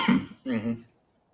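A tickle in the throat brings two quick, fairly faint coughing or throat-clearing bursts. The second burst is longer and more voiced, and then there is silence.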